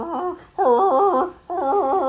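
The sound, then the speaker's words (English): A dog gives three long, wavering, whiny vocalizations, loud and tonal, each breaking off briefly before the next begins. “I like how Luna full on barked. And she was like, oh God. She's just growling.”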